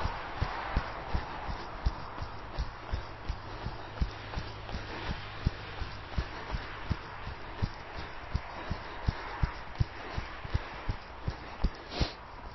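Footsteps of people jogging during a running drill, after skipping exercises: many quick, evenly spaced footfalls in a steady rhythm, moderately loud over a soft noisy background.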